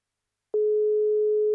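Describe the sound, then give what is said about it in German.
Telephone ringing tone after dialling a call: a single steady, mid-pitched tone begins after a short silence and holds evenly to the end. “Und ich sage, ich wähle mal. Wir rufen jetzt an”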